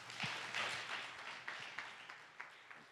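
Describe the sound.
Faint applause from an audience welcoming guest ministers: steady, dense clapping with a few sharper claps standing out over the even patter.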